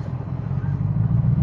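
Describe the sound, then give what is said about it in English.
Low, steady car-interior rumble picked up on a phone inside the car, a muffled drone of engine and road noise at moderate level that stays even throughout, with no talk. “And again, I apologize for the crappy audio. I am doing this podcast in my car.”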